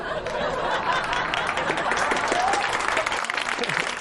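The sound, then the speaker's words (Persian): An audience applauds with dense, steady clapping that stays loud and even throughout, with a few faint chuckles mixed in. “برای خودشون دست هم میزنن”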